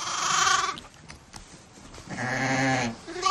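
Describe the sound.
Sheep bleating: two long, wavering, nasal bleats separated by a quieter pause, then the start of another at the very end, with no talk.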